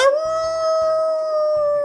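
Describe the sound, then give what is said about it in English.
A dog's long, steady howl, a clear sustained tone with rich harmonics that holds a nearly level pitch and stays loud throughout. “Weirdly good howl.”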